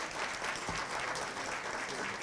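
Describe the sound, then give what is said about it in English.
Audience applause after a live music set, a steady, dense wash of clapping that holds at an even, fairly soft level throughout with no clear breaks. “How about another round of applause for that last set?”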